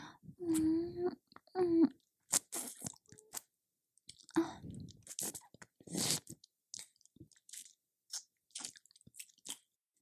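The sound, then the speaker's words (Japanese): Wet ASMR mouth sounds of nibbling an earlobe: many soft smacks, clicks and chewing noises in an irregular pattern, with a whispering voice at the start. “耳たぶ、かみかみ。”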